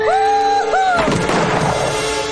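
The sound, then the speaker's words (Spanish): A gunshot fired into the air in a Western setting: one loud, sharp blast that leaves a long, rumbling decay. “Continúan disparando al aire.”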